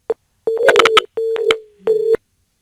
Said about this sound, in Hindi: Phone cut गई है।